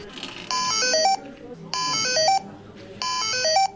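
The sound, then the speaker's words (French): A Thymio open-source educational robot plays three short electronic beep melodies, each a quick run of stepped tones, evenly spaced over steady background noise. “On s'approche ici d'un des modules bip bip tut tut qui suis-je, et on va écouter le robot Timio.”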